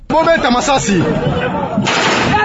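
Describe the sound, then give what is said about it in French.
Police gunfire outside the Olomami provincial assembly seat, shot to disperse deputies, heard as a harsh, loud burst of noise that follows a voice speaking. “Des éléments de la police tirent des balles devant les sièges de l'Assemblée provinciale de Olomami pour disperser les députés”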